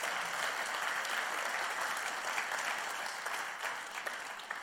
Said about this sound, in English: Let's just give our pastor a round of applause for that.